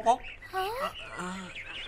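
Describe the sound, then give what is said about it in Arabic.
A crow caws in a few harsh, nasal calls with shifting pitch, fairly loud against a quiet background. “هل سمعتم؟ إنه صوت الغراب يا أصدقائي.”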